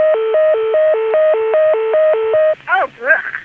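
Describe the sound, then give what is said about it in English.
Telephone deedle tone on a Dimension PBX heard over a T-carrier trunk: a steady two-pitch warble that alternates high and low for several cycles, then cuts off into a few brief, garbled, chirping bursts. “Let's hear the deedle in 480.”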